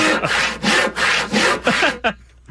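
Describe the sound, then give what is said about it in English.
Saw cutting through wood: a steady series of loud, rasping back-and-forth strokes in an even rhythm, ending with one brief final stroke before the sound stops. “That sounds like a saw. That it is a saw.”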